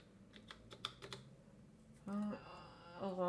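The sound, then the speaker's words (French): Typing on a computer keyboard while entering a composer's name into a music search, a quick run of light key clicks, then a person speaking. “Je vais taper par exemple Mozart.”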